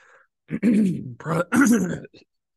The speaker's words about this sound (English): excuse me, just had something in the throat there for a second.